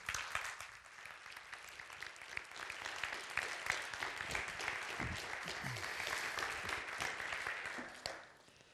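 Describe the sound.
An audience claps to welcome a speaker to the stage. The dense, even applause carries on strongly for about eight seconds, then drops away abruptly.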